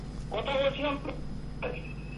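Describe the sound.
A telephone call connecting on a radio phone-in: a brief narrow, line-filtered voice, then a steady high electronic tone that holds to the end.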